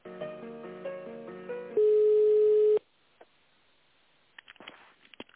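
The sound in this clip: Telephone line sounds during a call transfer: a short melodic hold jingle, then one steady beep lasting about a second. Near silence follows, with a few faint clicks.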